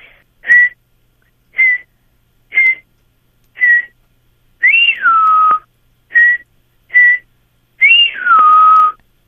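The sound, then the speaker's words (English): A person whistles an imitation of a gray jay call, producing eight clear whistles alone. There are four short, level notes, then one longer note that rises briefly and slides down, then two more short notes, then another long, falling note. “And what does the gray jay sound like? The gray jay, sometimes every now and then, does something like this.”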